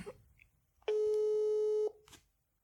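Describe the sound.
Telephone ringback tone heard while calling someone: a single steady, mid-pitched electronic tone lasting about one second, with soft faint noises before and after.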